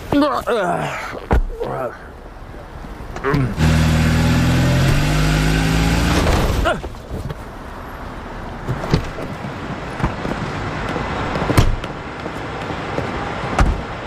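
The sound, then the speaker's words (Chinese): A car drives up and crashes into a parked car outside a hotel entrance. The engine revs loudly for a few seconds, with sharp knocks before it and scattered clatter afterward. “我们车停得好好的，他直接都撞上来了。”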